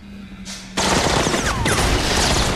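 Loud, dense gunfire erupts in a sustained rapid burst as a gunman suddenly opens fire on approaching agents in a shootout, the blasts running together after a brief quieter start.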